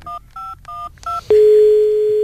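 Four short beeps from a telephone keypad being dialed, evenly spaced, followed by one steady, unbroken single tone that holds to the end. No voices are heard.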